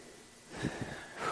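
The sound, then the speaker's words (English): A speaker's deep breath: a faint, airy inhale with a couple of soft, low snuffling bursts over a quiet background hiss. “I got to take a breath if you don't.”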